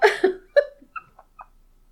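Someone chokes and coughs in a few short, sharp bursts that quickly grow fainter and more spaced out, ending in small gasping catches.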